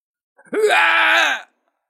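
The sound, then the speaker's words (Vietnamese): A man screams in pain as a sound effect: one drawn-out, strained cry about a second long that jumps up sharply at the onset and then holds, loud and alone against silence. “Thiên thần Mã Nguyên gào thét.”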